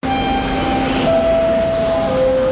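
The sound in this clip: A train pulls into a station with a continuous loud rumble, overlaid by sustained, high, tonal squeals from wheels and brakes that shift pitch partway through.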